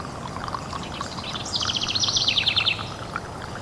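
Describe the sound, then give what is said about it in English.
Water trickles nearby among trees as a soft, steady babble. Midway through, a bird gives a quick run of high chirps. “and the water trickling nearby.”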